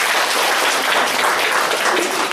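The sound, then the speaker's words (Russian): Applause from an audience during a spoken presentation. Dense, steady clapping forms a continuous loud hiss of overlapping claps that holds at an even level throughout. “Спасибо. Аплодисменты”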